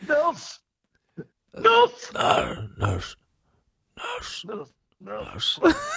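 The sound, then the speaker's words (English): A voice imitating heavy breathing: a few loud, uneven gasps and moaning breaths separated by short silences. “He's heavy breathing, and then he goes,”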